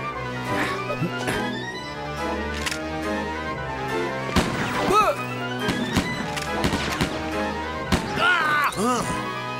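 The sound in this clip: Repeated gunfire from black-powder firearms in a battle, with many sharp reports at irregular intervals under loud shouting voices.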